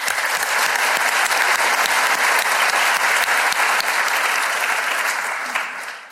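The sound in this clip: Loud, dense audience applause at a debate greets a speaker as he is welcomed to the stage. Many hands clap steadily and evenly throughout, with no voices, before the clapping thins and fades near the end.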